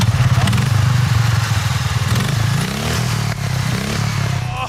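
Engine of a tuned ride-on lawnmower racing at full throttle in a championship run: a loud, continuous buzzing roar with a rattly, wavering pitch, briefly dipping before surging on.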